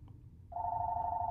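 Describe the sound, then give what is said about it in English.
A telephone rings with a steady, unbroken electronic tone that begins about halfway in and holds to the end, over a low background rumble. “Just ignore the phone ringing.”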